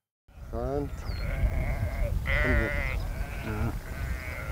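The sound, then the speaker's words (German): Sheep bleating from a flock of about 630 grazing the heath at Morsum Cliff on Sylt, led by a travelling shepherd and herding dog. A few wavering, nasal bleats stand out over a steady background murmur. “Die 630 Schafe sorgen hier für eine ganz natürliche Landschaftspflege.”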